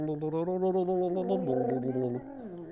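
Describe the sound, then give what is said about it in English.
A throaty, voiced gargle with a bubbling, wavering pitch lasts nearly three seconds and steps lower twice before it ends. “Gargling.”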